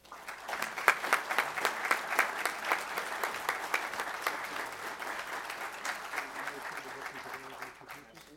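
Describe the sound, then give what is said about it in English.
An audience applauds as a speaker is welcomed to the stage for a talk on Civil War lawyers and courtroom dramas. Many overlapping claps form a sustained, lively wash that gradually thins and fades toward the end. “Please help me welcome Art Downey to the stage.”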